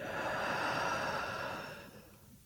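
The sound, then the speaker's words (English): A deep breath in and out: one long, airy, breathy rush that holds steady, then fades away near the end, with no talking. “Then take a deep breath in and let it out.”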